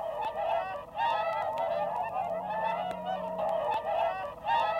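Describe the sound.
Swans call at their nesting islet in a pond, giving a steady run of nasal, honking notes that repeat one after another throughout, with no voices.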